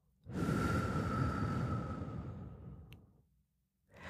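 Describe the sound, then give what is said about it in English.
A slow, deep breath during a guided relaxation and breathing exercise: a long, soft, airy rush that swells quickly, holds steady, then fades into silence. “Let's inhale and exhale.”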